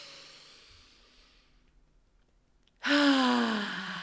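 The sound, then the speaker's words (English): A deep breath during a guided EFT tapping session: near silence, then a sudden loud, voiced sigh near the end that falls slowly in pitch. “Take a deep breath in.”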